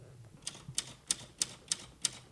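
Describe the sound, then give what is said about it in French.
Six crisp typewriter key strikes land at a steady, even rhythm, each a sharp, bright clack with short, faint gaps between and no voices. “Là, je fais semblant de taper à la machine.”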